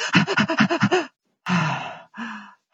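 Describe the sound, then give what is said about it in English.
A voice imitates a baby's irregular breathing: a quick run of short, panting breaths, then a pause followed by two slower, longer breaths, all loud and close. “and so they go in and out of this fast, slow breathing.”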